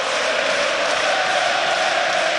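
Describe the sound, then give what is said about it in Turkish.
Beşiktaş supporters chanting at a football match, filling the stadium with a continuous loud crowd roar. A sustained, even chanting tone runs through it, without clearly separate claps. “İtalyano tezahüratları siyah beyazlı taraftarlardan, İtalyan teknik adamla alkışlarla karşılık verdi.”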